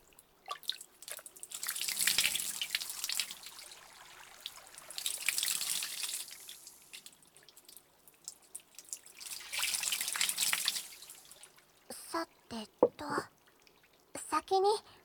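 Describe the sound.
Water running to rinse during washing: three long, splashy gushes of flowing water separated by quieter drips and trickles, with a voice speaking briefly at the end.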